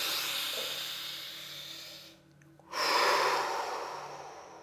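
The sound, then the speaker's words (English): A deep breath taken during a guided relaxation exercise: long, airy, hissing breath noise, a brief quiet gap, then a louder breath that slowly tapers off. “Good, take a breath.”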